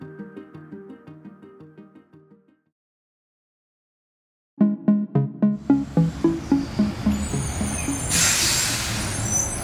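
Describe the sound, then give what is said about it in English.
Garbage truck collecting rubbish on a New York street, with air brakes: after a pause, a quick run of rhythmic, heavy mechanical thumps over rumbling engine noise gives way to a loud, hissing air-brake release. “It might sound like just another rubbish pickup, but in reality, it's New York's”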